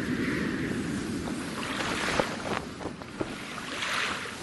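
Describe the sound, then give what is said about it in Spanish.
Strong night wind blowing through the rigging and ropes of a sailing ship, a soft, steady rushing noise broken by a few sharp creaks and knocks, all fairly faint. “El viento a esa hora de la noche había aumentado considerablemente su intensidad, provocando extraños sonidos entre las cuerdas del velamen”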